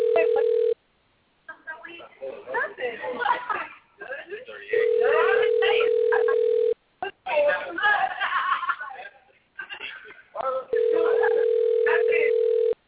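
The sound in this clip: A telephone line tone sounds in three long, steady, even bursts during a phone call, with people talking and laughing in the gaps between them.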